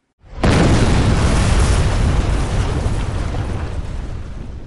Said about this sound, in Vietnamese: Một tiếng nổ to lớn vang lên.